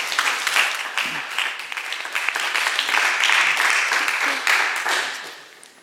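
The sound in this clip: Applause welcomes a woman speaker at a church morning gathering: a dense, steady patter of many hands clapping that holds evenly throughout, then thins and fades away at the end.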